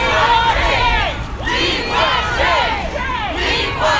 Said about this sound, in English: That's the sound of protesters taking to the streets of downtown Port Huron yesterday afternoon.